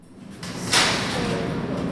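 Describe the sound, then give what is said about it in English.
A guard unlatches a metal window in a heavy steel prison cell door, giving one sharp metallic clank and scrape followed by a lingering low rumble. “The guard unlatches a metal window in the heavy steel door.”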